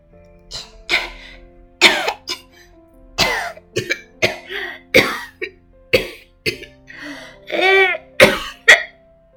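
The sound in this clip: A child coughs repeatedly in many short, harsh bursts with brief gaps between them. Some bursts are hoarse and mixed with throat clearing, and the coughing runs throughout without talk.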